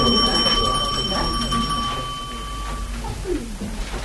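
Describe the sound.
A bell rings as a signal for the end: a sustained, bright electric-style ringing tone holds steady for about three seconds and then stops, with voices talking underneath.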